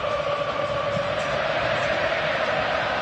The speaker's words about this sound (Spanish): Escuchen el público argentino. Escuchen.